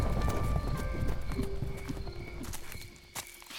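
Horse hooves clip-clop in a quick, steady gallop as a rider urges his horse away, the rhythmic beats fairly loud at first and growing fainter near the end.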